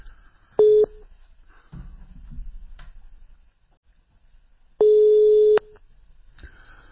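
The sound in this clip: Telephone line tone while a phone call connects: two steady, even beeps with a low pitch and a gap between them, the second beep longer than the first. Faint low noise sits under them.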